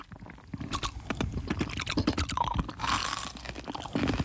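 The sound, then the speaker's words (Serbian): Crunching and chewing on sweet ice cubes, heard alone without talk. Many rapid, crackling bites and grinding crunches follow each other steadily, fairly loud throughout. “Ajde, probajte naše nove ledene kocke.”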